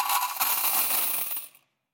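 Coins poured out as a rich person's temple offering make a continuous bright metallic rattle and clatter. It is fairly loud, lasts about one and a half seconds, then stops abruptly, with no talk.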